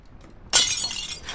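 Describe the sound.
A ceramic plate slips and breaks: after a faint quiet stretch, one sudden sharp crash with a bright, hissing scatter of shards that trails off unevenly, heard alone.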